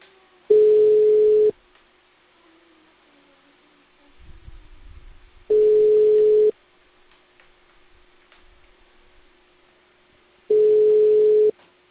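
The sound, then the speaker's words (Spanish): Ringback tones sound on a telephone line while a call is placed: three steady mid-pitched beeps, each lasting about a second and spaced evenly about five seconds apart, with a faint hum and a brief low rumble in the gaps. “Estoy llamando a Raúl Fabio”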